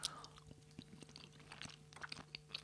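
Quiet chewing of a crumbly, nutty, almond-rich halva-like food that has fallen apart into powder. Many soft, irregular crunches and mouth clicks sit over a steady low hum.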